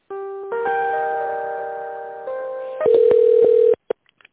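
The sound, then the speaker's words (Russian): Telephone line tones as an office call is transferred and connected: a sustained electronic tone that shifts in pitch and timbre partway through, grows louder, then cuts off abruptly, followed by a few faint clicks. “Сейчас, секундочку, соединю вас.”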